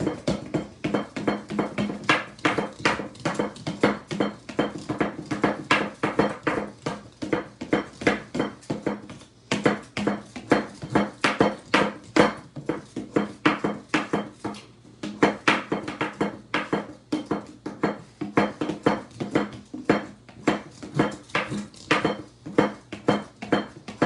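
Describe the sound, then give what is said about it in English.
A Pogo Whisk plunges into a bowl, making rapid, rhythmic metallic clinks and taps stroke after stroke at a steady tempo, with brief pauses between runs. “So once again, this is called the Pogo Whisk.”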